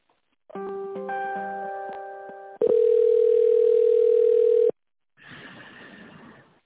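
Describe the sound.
Telephone dial tone while a call is placed: a loud, steady, unbroken tone lasting about two seconds, preceded by a layered chord of tones and followed by a shorter burst of hissy noise.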